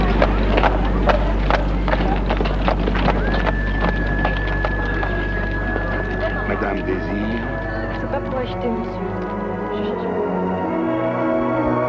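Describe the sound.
Clip-clop of a horse pulling a horse-drawn cab: a steady run of hoofbeats over a low rumble, with a sustained high squeal partway through.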